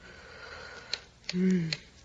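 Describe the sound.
A darn clock ticking in a bedroom, a few sharp bright ticks at uneven spacing over a low hum, with a brief low murmur between them.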